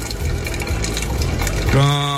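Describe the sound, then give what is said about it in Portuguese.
Water runs in a steady, gushing stream as a coffee pot is filled before the coffee is poured into a thermos. A clear tonal ring appears near the end as the pot fills. “Bora encher esse bule e depois passar pra garrafa térmica.”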